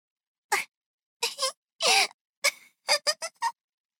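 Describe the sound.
A small child cries in a series of short, broken sobbing bursts with strained, wavering voiced wails, separated by brief silences.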